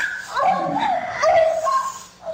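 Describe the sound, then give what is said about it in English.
A person growls with a strained, dog-like voice, a continuous, wavering vocal sound with whining edges that holds for about two seconds, fairly loud throughout. “So I forgot that you were growling at me. I recorded it.”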